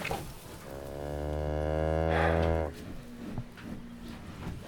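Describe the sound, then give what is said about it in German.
A single long, loud moo from a high-yielding dairy cow: a deep, steady bellow lasting about two seconds that swells and then cuts off, followed by faint background noise. “So eine tüchtige Kuh, ey, 50 Liter.”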